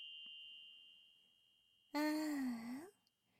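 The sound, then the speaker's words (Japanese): A small bell rings with a steady, clear, high tone that slowly fades. Partway through, a louder, low voice-like groan cuts in over it, then drops away while the faint ringing lingers. “こうやって、再び鈴を鳴らすと。”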